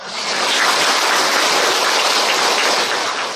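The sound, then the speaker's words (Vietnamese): Audience applause at a Buddhist dharma talk, a dense, steady wash of many hands clapping that swells slightly and holds without breaks, loud and alone with no voices. “Thấy các vị vỗ tay là biết các vị hạnh phúc rồi, biết các vị sống trong thiện pháp rồi, đúng không?”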